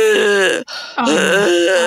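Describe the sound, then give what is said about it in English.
A voice imitates the labored, wet breathing of a quadriplegic young woman in a wheelchair: loud, wavering, groan-like voiced sounds in two stretches split by a brief gap. “listened to a young lady in a wheelchair, quadriplegic, who was fairly nonverbal, and her breathing was,”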